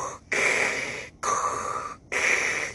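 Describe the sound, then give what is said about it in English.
A voice imitates the Darth Vader-like mechanical breathing of a woman on an oxygen tank: a brief hiss, then three long, raspy breaths in a steady rhythm, loud and alone. “this lady that had trouble breathing had some kind of oxygen tank. So she comes in sounding like Darth Vader.”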